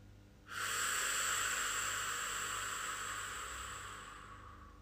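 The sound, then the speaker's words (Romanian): A slow, long breath during a guided breathing exercise: a steady, airy hiss that begins abruptly and slowly fades over several seconds. “Expir. Inspir. Expir.”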